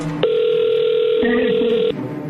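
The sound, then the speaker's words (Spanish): A telephone tone sounds while a call is being dialed: one steady, unbroken mid-pitched tone holds for under two seconds, with a faint voice murmuring briefly beneath its second half. “ahí se está marcando, entras tú”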